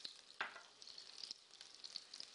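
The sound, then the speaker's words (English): Onions frying in a pan and being pushed around, giving a steady, bright, crackling sizzle with a few louder stirring scrapes and no voices. “All my onions go in. Push those around the pan.”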